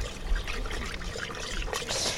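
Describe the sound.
Water mixed with wood ash, two mugs to a litre, is stirred, giving a soft, continuous swishing and trickling that stays fairly faint and even, with a few slightly brighter splashes near the end.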